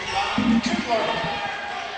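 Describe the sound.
A basketball is dribbled during a women's game, a few hollow bounces thudding on the court under a commentator's talk and crowd noise.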